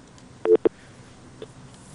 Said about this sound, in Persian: بله خب تماسشان قطع شد.